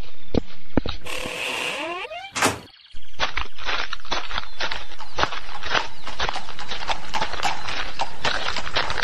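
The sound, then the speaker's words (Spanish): A horse pulls a cart, neighing briefly at first, then its hooves settle into a steady, rhythmic clip-clop that keeps going to the end. “¿Para dónde vas en la carreta?”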